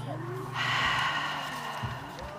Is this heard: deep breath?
yes